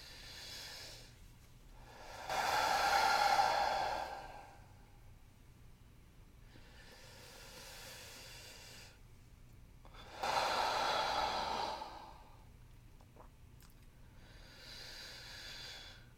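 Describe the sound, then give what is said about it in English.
Deep, slow breaths are taken on request, with long airy inhales and exhales. Two loud breaths stand out among softer, fainter ones, spaced several seconds apart with quiet gaps and no talking. “I want you to take 3 deep breaths.”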